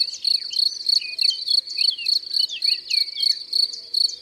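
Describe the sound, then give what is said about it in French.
A field cricket, a large black cricket with a golden-yellow band across its shoulders, chirps in a fast, steady, high-pitched rhythm of many evenly spaced trills. “C'est le grillon des champs, ce bon gros grillon noir avec une bande jaune dorée sur les épaules.”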